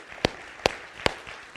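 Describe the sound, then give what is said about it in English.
Hand clapping from a church audience at a Sunday service: three loud, sharp claps in an even rhythm, followed by a couple of fainter ones. “Give the Lord a good hand clap this morning.”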